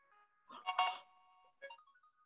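A Pokemon random spinner wheel sound effect plays as a faint electronic jingle, with a few bright chiming tone bursts and a short final chime.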